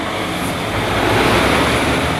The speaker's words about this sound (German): Ein LKW biegt aus Richtung Autobahn auf die B3 ab und viele Autos kommen hinterher.